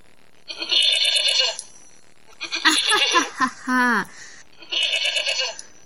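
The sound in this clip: Sheep bleating in a few drawn-out, quavering cries separated by short pauses, with a voice briefly heard among them.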